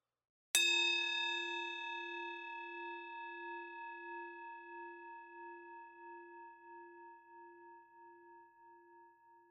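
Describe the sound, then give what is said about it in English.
A meditation bell is struck once at the close of a meditation and rings out alone, its bright, clear tone decaying slowly over about nine seconds with a gentle wavering shimmer. “each moment, until the bell rings, and then shifting the attention to hearing.”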